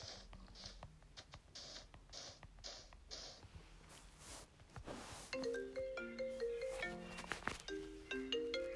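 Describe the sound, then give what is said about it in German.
A phone ringtone signals an incoming call, a melodic run of bright, beeping tonal notes filling the second half, preceded by scattered clicks and soft noise. “Okay, ich werde gerade angerufen. Deswegen mache ich mal kurz hier.”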